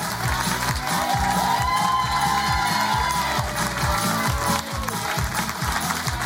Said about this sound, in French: On les applaudit bien fort. Avec Jérémy, Mylène, Sébastien, Allez, on leur fait une ovation.